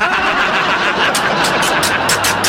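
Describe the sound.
A car engine starting: a dense, steady mechanical rumble that carries on loudly, with a run of quick ticking pulses coming in toward the end.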